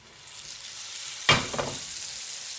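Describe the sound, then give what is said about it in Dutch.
Butter melts and sizzles in a frying pan, giving a steady hiss that slowly swells, then a sudden louder crackling burst, after which the sizzle settles back to an even hiss. “ik zie wat boter in de pan gaan. Ja. Dat moet nu smelten.”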